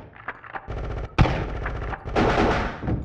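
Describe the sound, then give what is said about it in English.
Gunfire erupts as troops open fire on attackers approaching a door: dense, loud, continuous crackling bursts with a sharp, heavy blast near the middle and fuller, sustained firing toward the end. “Contact. Open fire.”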